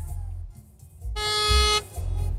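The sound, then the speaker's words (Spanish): A single feeble car horn honk, a short, thin, steady tone under half a second long, sounding over a low background rumble. “Pinche pito bien aguado.”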